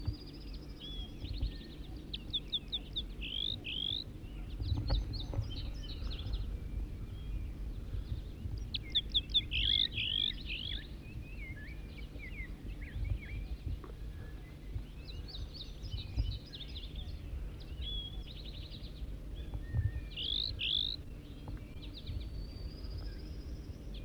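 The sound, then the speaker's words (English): Wild bird singing in several separated bursts of high, rapid chirping trills with quiet gaps between phrases, over a faint steady low hum and no voices. “Start recording a wild bird again.”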